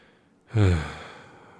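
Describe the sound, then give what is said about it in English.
A single deep breath: a sudden, full exhale with a faint voiced, sighing tone that swells quickly, then tapers off gradually over about a second. No talk around it. “Take all five senses. Take a deep breath.”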